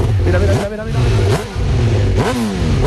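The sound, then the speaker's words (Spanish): A Honda motorcycle engine revs hard, its mid-pitched roar climbing in a few sharp surges between steady, throaty idling stretches. “Suena muy bien, ¿eh? Esa suena muy bien. Mi hijo. Yo diría que es Honda.”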